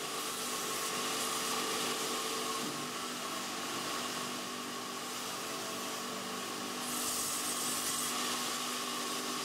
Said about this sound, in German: Zunächst müssen aus dem gut abgelagerten Holz Stücke in die richtige Größe und Form gesägt werden.